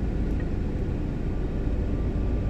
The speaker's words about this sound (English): But the heater is on. I'm warming up the car, like I said